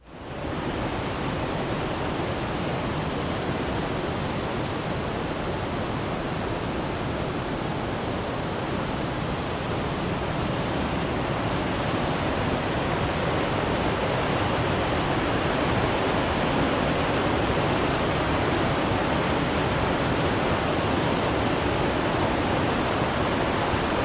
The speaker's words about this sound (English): As you continue to move forward, you're going to come across one of the first water features on the trail.